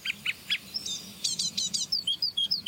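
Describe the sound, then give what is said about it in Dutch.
An adult great tit and a fledgling great tit calling: many thin, high chirps and whistled notes in quick, irregular runs, loud and clear over a soft, steady background hiss. “Koolmees en een uitgevlogen jong van een koolmees.”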